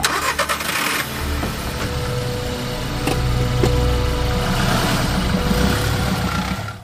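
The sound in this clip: A car engine starts up, with a few sharp clicks near the beginning, then settles into a steady mid-pitched running rumble that continues loudly until the end.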